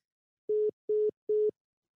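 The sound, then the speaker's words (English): Phone line tone after the caller hangs up: three short, evenly spaced beeps at a steady low-mid pitch, clean and alone. “The caller has hung up.”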